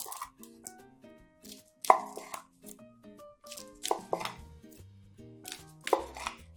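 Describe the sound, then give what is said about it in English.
Knife slicing through a rolled food roll eaten like a burrito: a few crisp cutting strokes spaced a couple of seconds apart, each a short sharp chop standing out clearly. “I'll take the roll and just kind of eat it like a burrito. But of course you always like to slice it.”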